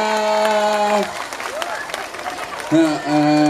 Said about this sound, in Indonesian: tepuk tangan semuanya.